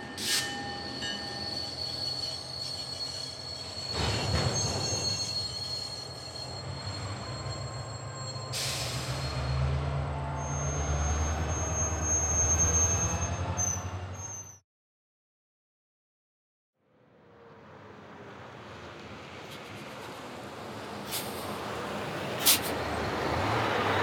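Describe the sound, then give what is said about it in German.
A train departing from a station, with screeching wheel squeal over a steady rumbling roar. A brief gap of silence follows, then the rolling noise builds again. “Bitte einsteigen. Der Zug fährt ab.”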